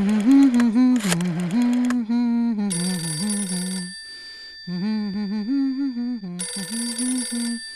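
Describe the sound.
A telephone rings in repeated bright bursts during a Christmas call from Brooklyn to Puerto Rico. Three ring bursts are separated by gaps, and a voice carries on underneath throughout.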